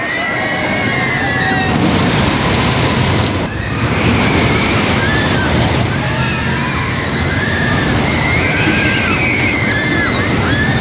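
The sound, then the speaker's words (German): Roaring rush of a wooden roller coaster ride that has run since 2009: a loud, steady rumble and wind-like whoosh with high squealing tones over it and one short dip partway through. “Eine ganze Stufe mehr bietet schon die Holzachterbahn El Toro, die seit 2009 Fahrspaß bietet, inklusive Geräuschkulisse.”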